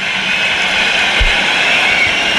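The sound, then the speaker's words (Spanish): Football stadium crowd applauding and whistling during a player substitution: a loud, continuous roar of massed clapping with a shrill whistling band running through it, steady throughout with one low thump midway. “Aplausos y pitidos.”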